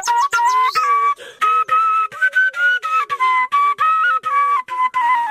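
Melody from a traditional shepherd's flute, the shpelai, played by an elderly man in a green valley village in Khwaja Umari district. Loud, breathy sustained notes come in short repeated phrases separated by brief breaths, with no voices.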